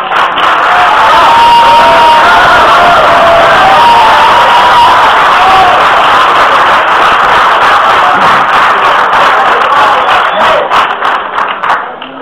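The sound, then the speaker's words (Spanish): Loud, sustained applause from an audience greeting an author at a talk, dense clapping with some cheering running steadily for about twelve seconds before thinning slightly at the end. “Recibimos con un fuerte aplauso.”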